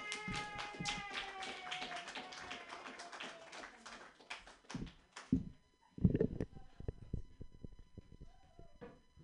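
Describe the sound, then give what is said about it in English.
Scattered clapping from a comedy show audience welcoming a comedian to the stage. A voice is heard first, then a few sparse, uneven claps follow rather than dense applause. “Put your hands together, everybody. For Lucas Larson, yay!”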